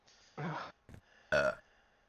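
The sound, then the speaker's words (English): Burping from a person: two loud, low, raspy belches with a short fainter burp between them, heard alone without talk. “Sorry for all the burping.”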